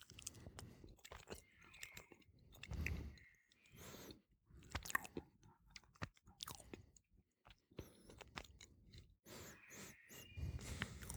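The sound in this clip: Chewing and biting Appenzeller cheese during a tasting: many soft, irregular crunchy chews, quite faint, with brief pauses between bursts.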